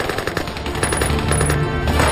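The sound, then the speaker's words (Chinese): Machine-gun and rifle fire erupt as troops ambush an advancing column from both sides of a gorge, a dense, continuous crackle of rapid shots at steady loudness with no pauses or voices. “当日军先头部队进入燕祖崖村后，埋伏在峡谷两侧的八路军在司令员杨成武的指挥下一起开火。”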